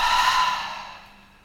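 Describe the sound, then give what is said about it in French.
A deep exhale through the mouth during a yin yoga session: one long, breathy, airy release that starts full and steadily fades away, heard alone with no talk. “Encore une fois, une longue inspiration ici par le nez. Une profonde expire par la bouche.”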